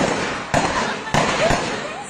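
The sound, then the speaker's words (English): Live gunshots as security forces fire on protesters in Myanmar: three sharp, loud cracks punch through a dense, noisy wash with voices mixed in. “moved quickly from using tear gas and rubber bullets to live rounds. The shooting was caught on camera by this terrified bystander.”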